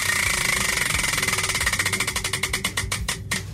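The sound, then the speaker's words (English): A song-selection prize wheel spins at a singing game, its pointer ticking rapidly against the pegs, the clicks steadily slowing and spreading apart as the wheel winds down over a low background rumble. “So we're going to spin. There's all different types of songs up there. Whatever song it lands on, you got to sing that song loud in order to win, okay?”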